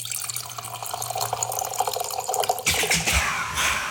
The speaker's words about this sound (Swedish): Ja, visst var det bag-in-box.